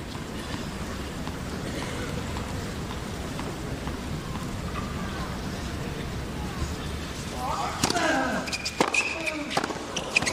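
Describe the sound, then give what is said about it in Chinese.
A tennis ball bounces on court before a second serve in a professional match between Nadal and González, a few faint sharp taps near the end under a steady crowd hum and low talk. “一发没有发进，第二发球。”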